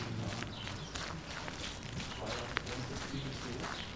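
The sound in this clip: Footsteps of people walking along a village street, the Scharflower Straße: a faint, steady run of soft steps over low outdoor background noise.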